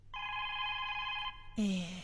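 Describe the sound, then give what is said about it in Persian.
A single steady electronic telephone ring sounds faintly for about a second, and then a voice starts speaking. “کی تلفن کده باش که گوشی رو بگیرم”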